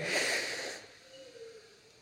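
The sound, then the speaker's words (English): A group of people drawing one big, deep breath in together: a loud, airy rush of inhaled air that swells briefly and then fades into near quiet. “why don't we all, right now, together, take one big, collective, deep breath in. Ready? In.”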